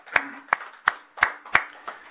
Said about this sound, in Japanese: 盛大な拍手でお願いします